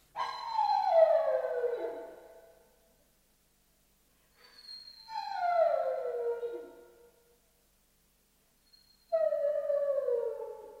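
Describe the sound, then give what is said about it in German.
A dog howls three times, each long wavering cry sliding downward in pitch over about two seconds, separated by short silences, fairly loud and alone without talk. “Warum nur heult der Hund? Wie schwül es ist. Aus irgendeinem Grunde heulen die Hunde.”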